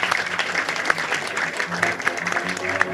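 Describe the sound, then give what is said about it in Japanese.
Audience applause at a live pop concert: a dense, continuous patter of many hands clapping, holding steady loudness throughout. “直美ちゃんと直子ちゃんね、一つ拍手でお迎えたいと思います”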